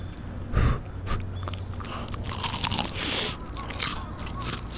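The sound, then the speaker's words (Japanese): Crunchy bite into a heavy piece of freshly fried karaage chicken seasoned with soy and mirin: one loud crisp bite early on, then many crackling crunches and chewing sounds, with no talking. “では唐揚げから大きいお箸で持つのが大変な重さですいただきます”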